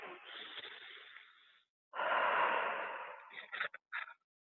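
A deep breath during a self-forgiveness clearing exercise: a long, soft airy draw followed after a short pause by a fuller, louder breath that ends in a few short puffs.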